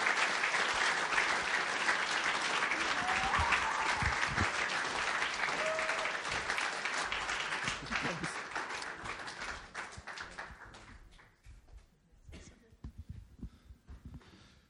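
Audience applause welcoming two guests at a building ceremony: steady, dense clapping that thins out and fades over the last few seconds, with a few scattered claps at the end.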